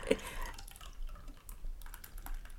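Beer being poured into a glass: faint, irregular liquid splashing and dripping sounds run through the whole stretch with no voices.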